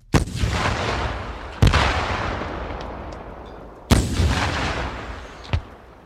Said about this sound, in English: Two men with bazookas climbed up on the roofs of the SUVs and sent shrieking projectiles streaking into the buildings.